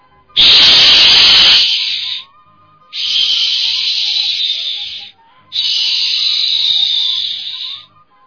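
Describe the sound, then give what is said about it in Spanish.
An emulated warrior death whistle gives three long, piercing, breathy shrieks of about two seconds each, separated by short gaps. The first is the harshest and carries a noisy low roar beneath the scream. “lo que hemos hecho es emular el sonido que tenían esos silbatos de la muerte guerrero”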